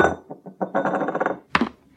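A drinking glass slides on a smooth table with a brief scraping rasp, then a sharp glassy clink. A few light taps come before the scrape.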